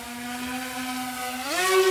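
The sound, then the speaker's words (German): A military drone hovers directly overhead with a steady, buzzing rotor whine. Near the end the pitch climbs sharply and the sound grows louder. “Er lässt eine Drohne direkt über sich in der Luft stehen.”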